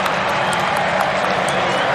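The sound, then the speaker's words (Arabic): French football fans roar in a stadium as a substitute enters the pitch during France's match against Norway: a dense, steady wash of crowd noise that holds at an even, loud level throughout. “ريان شرقي يشاهد كيف تستقبل الجماهير الفرنسية دخول اللاعب ريان شرقي.”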